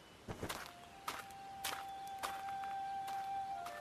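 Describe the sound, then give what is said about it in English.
Footsteps walking quietly through a forest, several soft, separate steps at an unhurried pace, with a thin steady tone running faintly underneath and no voices. “The monk walked quietly through the woods, admiring flowers and plants as he went.”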